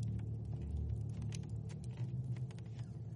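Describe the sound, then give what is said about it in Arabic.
Carriage wheels roll along a street, producing a continuous low rumble with a faint patter over it. The sound stays steady throughout and no one speaks. “ثم أضاف بينما يعلو صوت دوران عجلات المركبة في الشارع”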